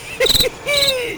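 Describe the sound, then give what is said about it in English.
Crickets chirping outdoors: two bursts of rapid, high, pulsing chirps, the second longer and steadier than the first, with no voices. “What's happening? I think I hear the crickets outside.”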